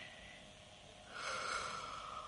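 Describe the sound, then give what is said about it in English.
Faint, hushed breathing of a person in a room, a soft airy hiss that swells about midway into a longer drawn breath and holds there, with no talking. “Somebody else in this room is breathing.”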